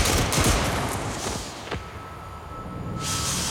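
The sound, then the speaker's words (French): A firing squad's rifle volley: a dense, loud burst of noise that eases into a rough rumble, with one more sharp crack partway through and the noise swelling again at the end. “il est donc condamné à mort et fusillé. Formez le peloton. On joue. Feu.”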